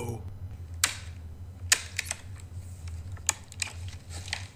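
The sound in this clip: A briefcase is opened with a few sharp, dry clicks spaced a second or so apart, along with faint handling rustles over a low steady hum.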